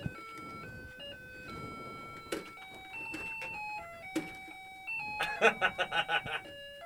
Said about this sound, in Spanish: Sonó la alarma del reloj.